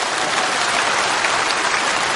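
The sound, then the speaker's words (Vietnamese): Audience applause fills a talk by a monk. The clapping is dense, even and sustained at moderate loudness, with no voices. “Các vị không dám vỗ tay lớn lời”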